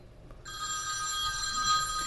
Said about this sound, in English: You really don't know how to turn your phone off? Here's the thing. That was my phone, sorry.